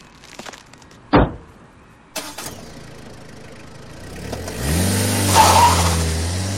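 A car drives off: a couple of sharp knocks, then the engine starts and revs up with a rising, steady roar as it pulls away, with no voices.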